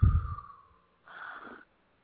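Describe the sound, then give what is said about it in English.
A single deep breath taken during a guided belly-breathing relaxation exercise: a soft, snuffly intake through the nose, a brief pause, then a quieter, airy exhale out through the mouth. “Take a big deep breath in through your nose and out through your mouth.”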